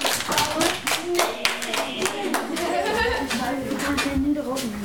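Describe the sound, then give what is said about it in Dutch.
Hands clapping in a quick, irregular run of sharp claps that continues throughout while a voice talks over them. “Zo, klap, klap, klap, klap.”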